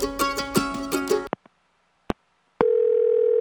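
A steady telephone dial tone sounds while a call is being placed. It follows a short stretch of music and a few sharp clicks, then holds loud and unbroken at one pitch to the end.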